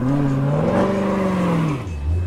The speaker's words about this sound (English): A bunch of them are his favorite sports car, the Dodge Challenger Hellcat.